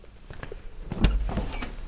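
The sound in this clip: An office door opens, with a short thudding clunk near the middle followed by a softer scraping rustle. It is fairly quiet throughout and no one talks.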